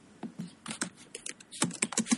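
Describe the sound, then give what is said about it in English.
Typing on a computer keyboard, a quick, irregular run of soft key clicks and taps with no voices. “I'm going to type it in.”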